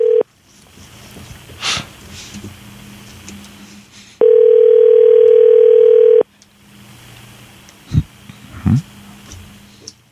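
Ringback tone on a telephone line while a call is placed: a steady, mid-pitched purr holds for about two seconds between quiet stretches of line noise, with the clipped tail of an earlier ring at the very start.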